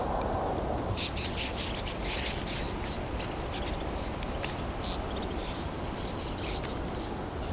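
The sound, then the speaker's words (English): Brief high chips and calls from a mixed winter flock of chickadees, nuthatches and blue jays, repeating many times, thin and faint above a loud, steady rushing noise that runs through the whole stretch. “So I'm coming up on a flock. Mixed flock, chickadees, nuthatches, sounds like blue jays too.”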